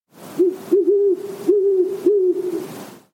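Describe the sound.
An owl hoots in a series of low, steady, even-pitched calls, separated by short gaps, with nothing else heard.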